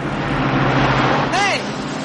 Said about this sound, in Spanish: La furgoneta de los terroristas pasa de largo a su lado.